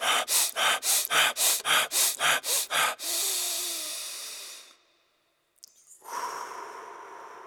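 Rapid, forceful hyperventilation breathing by a handball goalkeeper on game day, using a Wim Hof technique to raise adrenaline and dull pain: a quick, even series of sharp breaths, then one long, drawn-out exhale, a brief silence and another breath.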